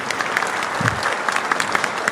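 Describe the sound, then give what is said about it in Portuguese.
Applause from a church audience welcoming visiting groups, a dense, steady patter of many hands clapping at an even loudness for the whole stretch. “Tudo bem, isso, pode aplaudir.”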